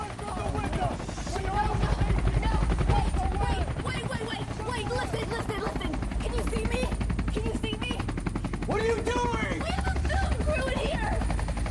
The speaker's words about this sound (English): A helicopter searchlight hits the balcony and a soldier points his rifle at them.